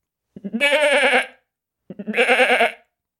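A man bleats like a goat, imitating the animal with two loud, wavering, nasal bleats, each lasting about a second and separated by a brief silence.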